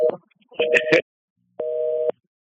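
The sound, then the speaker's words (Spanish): Telephone tone on a line after a dropped call: two steady, flat electronic beeps separated by a short silence, with a brief bit of talk at the start. “Ay, se cayó la llamada de Helen, creo.”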